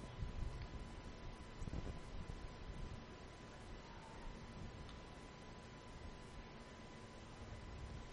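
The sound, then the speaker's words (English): Wind buffets a baseball field, blowing out toward right field and shaking the center field camera. It makes a steady, low rumbling roar with no talk. “Wind blowing out to right. The wind blowing the center field camera around.”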